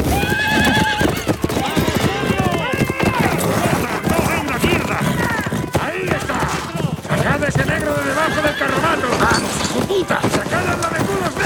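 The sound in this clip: A horse neighs loudly with hooves clip-clopping steadily during a raid on a wagon, the whinny rising over continuous shouting voices and busy background commotion.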